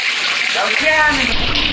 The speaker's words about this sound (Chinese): 你看我个假山，又喷水